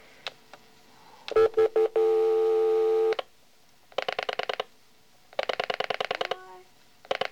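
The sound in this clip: Telephone keypad tones as a number is dialed: short beeps in quick bursts, a steady held tone, then two rapid runs of many clipped beeps, with no talk.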